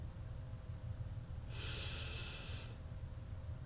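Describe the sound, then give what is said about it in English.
A soft nasal inhale with the mouth closed, taken at the start of a paced breathing exercise, a single quiet airy breath lasting about a second over a low steady background hum. “Close your mouth and start inhaling quietly through your nose to a count of four.”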